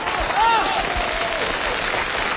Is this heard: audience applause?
yes